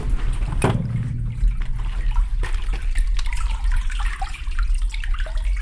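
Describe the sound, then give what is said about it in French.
Water rushing steadily through an irrigation pipe that feeds farmland for bananas and vegetables, a continuous loud gurgling flow with trickling and dripping detail throughout. “Donc ça, c'est l'écoulement de l'eau dans le tube qui sert à irriguer les terres de Faja.”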